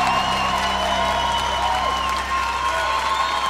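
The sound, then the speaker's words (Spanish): Audience applause and cheering for a teacher on a live radio program, a dense, even wash of clapping over a steady low hum and sustained tones. “¡Aplauso al maestro Leonard!”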